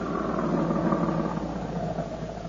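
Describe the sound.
A car drives up to a gate in a radio drama, heard as a steady engine rumble and road noise that holds level from start to finish, with no voices over it.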